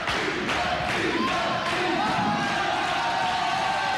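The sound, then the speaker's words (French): A live show audience cheers, a dense, steady roar of crowd noise with several sharper bursts of shouts and clapping layered over it throughout. “Écoute le public, écoute.”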